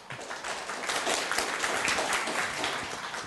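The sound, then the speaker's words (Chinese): An audience applauds at an academic symposium as the first presenter is welcomed: dense, steady clapping that swells in and holds evenly for about three seconds with no voices over it. “那我想借重各位的掌声”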